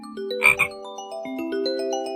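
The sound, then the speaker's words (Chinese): Frog croaking: one brief throaty croak near the start, then a continuous buzzing, tonal drone that holds at a moderate level to the end, with no talk. “拉鲁拉知道了，是青蛙。小青蛙有一对大大的眼睛，每次叫起来脖子都会一鼓一鼓的。”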